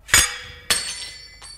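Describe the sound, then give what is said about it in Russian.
A filled drinking glass is smashed: a sharp, bright glass crash with ringing shards, a second glassy impact shortly after, then a faint final clink, with no voices. “если бы я не разбил этот бокал с отравленным напитком миледи”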